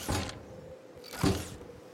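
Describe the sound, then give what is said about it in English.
Mechanical whirring and grinding from an old robot trundling on antiquated treads with grinding gears along a path between empty library racks, heard as two separate strained bursts of motor noise with quieter gaps around them. “The old robot continued to trundle down the well-worn path between the empty racks, the noise of grinding gears, and antiquated treads like wheezing breath.”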